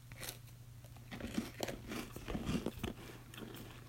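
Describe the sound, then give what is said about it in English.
Crunchy bites and chewing of a cookies and cream toaster pastry held close to the mic: several sharp crisp crunches and wet chewing clicks over a faint low hum, with no talking. “Right now I'm going to take a bite of this Pop-Tart right now, cookies and cream.”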